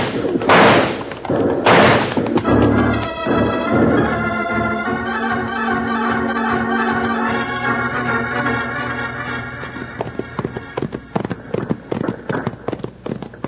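Rifle fire rings out from guards on a prison wall holding off a gang: many rapid, loud shots cracking in dense bursts at first, then thinning into scattered, sharper reports.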